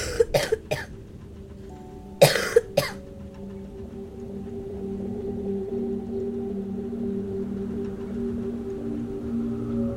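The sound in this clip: A feverish young girl coughs violently: a quick run of three harsh coughs, then after a pause another cluster of two or three, all over a steady low droning hum.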